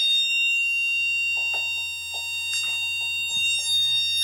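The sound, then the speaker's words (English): A fire alarm goes off in a new-build hotel in London's Docklands. It is a continuous, piercing high electronic tone, with scattered knocks and shuffling sounds over it. “That is the sound of the alarm going off.”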